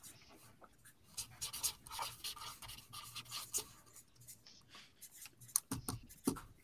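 Pen or pencil scratching on paper as players jot down answers during a game, soft intermittent strokes in short bursts separated by quiet pauses, faint throughout.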